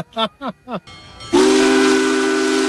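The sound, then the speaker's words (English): A steam locomotive whistle sounds as the train passes. Three short hoots with falling pitch lead into one loud, long, sustained blast, and hissing steam runs underneath it. “They stood with hundreds of others as the locomotive thundered past.”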